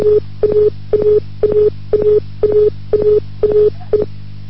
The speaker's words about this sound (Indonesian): Telepon Anda terputus ya?